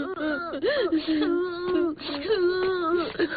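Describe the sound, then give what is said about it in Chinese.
Children cry and whimper with continuous tearful wails whose pitch wavers up and down. The breathy sobbing pauses only briefly. “孩子们，别哭了，快吃吧。”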